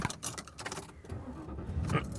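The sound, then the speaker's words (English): Car driving home on the road, heard from inside: a faint low rumble of the vehicle, with keys jangling and light rattles clicking irregularly over about two seconds. “So, I am driving home this week.”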